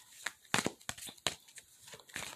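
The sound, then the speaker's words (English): A deck of cards is shuffled during an intuitive card reading: a faint series of quick, papery riffling bursts with short pauses between them. “Tell me more about this card. Tell me more about this. Hold on, yeah, I'm still shuffling.”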